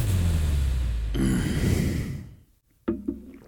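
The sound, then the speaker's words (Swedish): A person groans from muscles sore after training: a long, low voiced moan that turns into a breathy exhale, then a short silence and two faint, sharp clicks. “Men det låter som att du stönar. Nej, det är, alltså, allt gör ont.”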